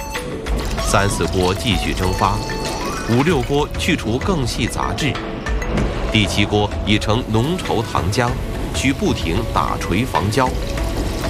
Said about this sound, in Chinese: 收获后的竹蔗经过清洗后，榨出的蔗汁如溪流般汇入收集槽，而这仅仅是制糖的第一步。